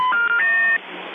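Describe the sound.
Telephone dialing tones for an international call, a quick run of a few steady electronic beeps that jump between pitches, followed by a fainter, lower tone.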